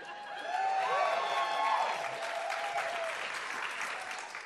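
A live audience in Austin applauds: dense, steady clapping from many hands with a shout or two on top, swelling early and then slowly easing off.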